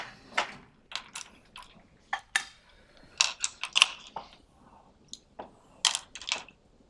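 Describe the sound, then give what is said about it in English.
Drawing by hand on a board during a lecture on integrals: faint, short, scratchy taps and strokes at irregular intervals, with no talk. “So let's do a little drawing.”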